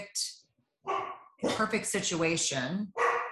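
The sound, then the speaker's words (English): Dogs barking in a few short, sharp bursts, mixed in with a person talking over them. “my dogs are agreeing”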